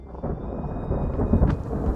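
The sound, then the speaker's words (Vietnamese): Thunder crashes from a lightning strike amid heavy rain pouring over open fields: a dense, steady rumbling roar that swells to a louder crack partway through, with no voices. “Rồi bất chợt một tia sét lóe lên, mang theo cả tiếng gầm vang dữ dội. Từng hạt mưa thì nhau trút xuống, vàng trắng cả cánh đồng.”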